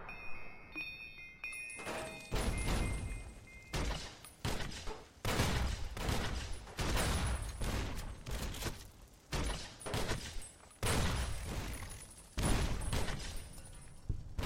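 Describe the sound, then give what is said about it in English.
Time grenades lobbed in a video game go off as many sharp, loud blasts in an irregular rhythm, filling the whole stretch with burst after burst. “All right, those are the time grenades.”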